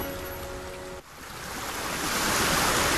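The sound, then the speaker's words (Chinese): The rushing roar of the Qiantang River tidal bore at Haining, Zhejiang: a dense, hissing wash of churning water that dips briefly, then swells steadily louder. “钱塘江的潮水每天都会如约而至”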